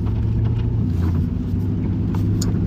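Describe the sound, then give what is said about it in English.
A car driving around an island gives a steady, low engine rumble with an even drone that holds throughout, with no clear acceleration, horn or voices. “Driving around right now.”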